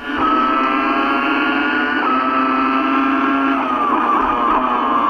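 Shrill, loud Formula 1 engine scream as the car laps the Abu Dhabi circuit, a sustained harmonic whine held steady with a couple of brief pitch breaks as it shifts.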